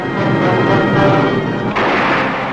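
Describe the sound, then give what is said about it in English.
Artillery and rocket guns open fire from landing barges approaching a shore in a World War II amphibious assault, forming a dense, continuous roar of gunfire with no distinct separate blasts, steady and loud throughout. “Barges approach shore ready for instant action, some bearing artillery and rocket guns already opening fire.”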